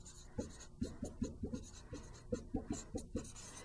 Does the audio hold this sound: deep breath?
no